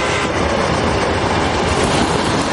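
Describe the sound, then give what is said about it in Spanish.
A Trans-Siberian railway train crosses a snowy plain at night with a steady, loud rumble and rattle of wheels and carriages that holds without a break, and no voices. “De noche, el ferrocarril atraviesa una gran explanada cubierta de nieve.”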